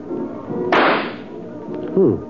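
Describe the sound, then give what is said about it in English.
A rifle shot at a shooting gallery: one loud, sharp crack with a short decaying tail, standing out against a low, murmuring background. “Give me the rifle, mister. I got 5 more shots coming.”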